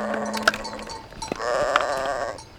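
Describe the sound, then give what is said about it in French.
Sheep bleat on a mountain pasture on a spring morning, a few wavering, nasal calls that overlap one another above a faint background hiss. “Par un beau matin de printemps, Moïse mène paître ses moutons dans la montagne de l'Horeb.”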